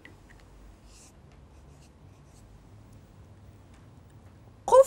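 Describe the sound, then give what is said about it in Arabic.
Faint, steady scratching of a word being written by hand during a lesson, the soft strokes continuing quietly and evenly. “يلا إوا يلا نكتب. قفلون. أنا غادي نكتبها باللات زيني نكتبها أنا.”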